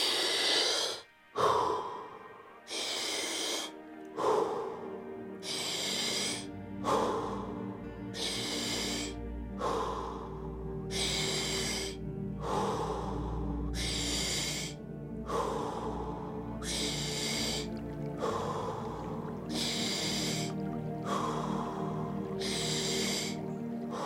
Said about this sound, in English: Inhale through the mouth. Exhale through the mouth. Let's go 30 times.